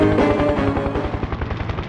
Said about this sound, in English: We appear to be flying in some sort of modified golf cart with four shotguns duct taped to the hood and propellers where the wheels should be.